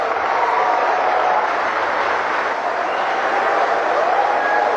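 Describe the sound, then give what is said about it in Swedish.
An audience at a BRICS business forum applauds as Russia's president arrives to speak. The clapping forms a dense, even wash of noise that stays steady and moderately loud throughout. “Ja, här har vi en glad publik vad det verkar.”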